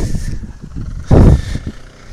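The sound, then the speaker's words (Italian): A minicar with no muffler roars past on a street, its rough engine rumble swelling into a loud, brief burst before dropping back to a lower growl. “Il tipico rombo smarmittato della minicar che sfreccia per le strade della Loggiata”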